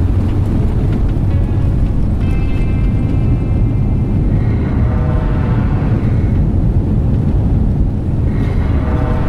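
An airplane flying in to land sends out a loud, unbroken roar of engine and wind noise with a faint tonal hum. The sound stays steady throughout, with no voices.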